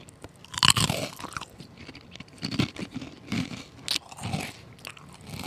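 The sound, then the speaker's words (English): Crunching and chewing of thick Fritos corn chips, many loud, sharp bites followed by irregular crackly chewing, close and crisp with no talk. “So they're hearty. Like, so here, I brought to you now by Fritos. Here is your ASMR moment.”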